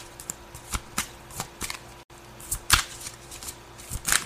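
Tarot cards are shuffled by hand in a quiet series of crisp, papery flicks and riffles at an uneven rhythm, with no voices over them.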